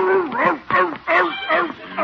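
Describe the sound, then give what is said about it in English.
Chickens squawk in a quick run of harmonic, arching cries while a dog chases them, with several sharp bursts following one another in lively bursts. “Stop him, Leroy. He's chasing the neighbor's chickens.”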